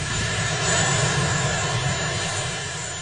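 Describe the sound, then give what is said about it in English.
A presidential helicopter lands with a loud, steady engine and rotor roar that holds constant throughout and eases slightly toward the end. “That is Marine One landing.”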